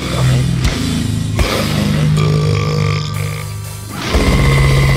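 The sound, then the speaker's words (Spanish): A long, loud, deep burp after a meal, a rough voiced rasp that breaks off briefly a few times and swells again near the end. “el eructo después de comerte todo el título este”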